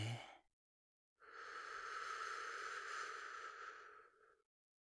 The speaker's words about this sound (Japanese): ゆっくり吐いて。ゆっくり吸って。